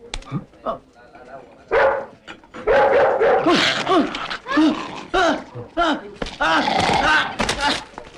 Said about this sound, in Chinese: 哎，你们家狗咬人了，你看看。